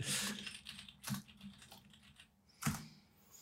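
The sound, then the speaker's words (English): Faint keystrokes on a computer keyboard as a search is typed in: a few separated, soft clicking taps with dull low thuds and quiet gaps between them. “You have to type the whole thing in and it might come up because it's so not searched.”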